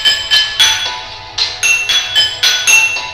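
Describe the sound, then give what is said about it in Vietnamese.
A bowl is tapped repeatedly by someone eating and drinking alone at night, giving bright ringing clinks in an uneven rhythm, each with a short high shimmering decay. “Bác vừa ăn, vừa gõ bát.”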